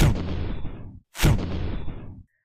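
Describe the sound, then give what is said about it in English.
Two loud, rough blasts, each lasting about a second with a brief gap between them, as a roaring giant creature fires an orange energy beam from its mouth along with beams from its eyes. “He opens his mouth, causing another orange beam to form. He shoots it out along with the ones from his eyes.”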